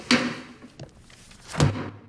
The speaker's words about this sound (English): He slams the book shut.